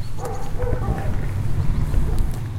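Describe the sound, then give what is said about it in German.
A dog barks, the dog of a local electronics shop, giving a few short barks and yips over a steady low rumble. “Das ist der Hund vom hiesigen Elektrohandel.”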